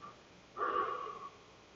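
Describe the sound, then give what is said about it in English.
A single audible breath during a guided breathing exercise: a soft, airy whoosh lasting under a second, rising out of a quiet background and fading away. “Breathe in. Exhale out.”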